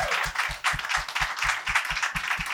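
An audience in the basement of Union Hall applauds a comedian being introduced. The applause is fairly faint, with a steady rhythmic thumping pulsing beneath the clapping.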